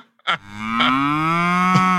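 A cow gives one long, loud, low moo with a rich buzzing tone whose pitch creeps slowly upward as it is held, opened by a brief thump.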